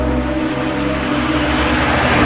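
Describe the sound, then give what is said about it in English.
A car drives away, a loud, steady engine rumble with a continuous low droning hum that holds throughout. “She rolls up her window and drives away.”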